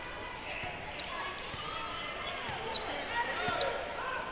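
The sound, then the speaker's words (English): A basketball is dribbled on a court, with a few dull, sharp bounces spaced through a steady crowd murmur. “Takes a couple of dribbles, across the midcourt stripe.”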